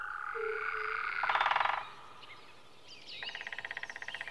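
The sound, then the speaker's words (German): Small frogs croak in two pulsed, trilling bursts, the second longer and steadier, fairly faint against a quiet background, with a short lower tone near the start. “Aber hier sehen Sie ein paar kleinere Frösche. Die verstecken sich natürlich auch.”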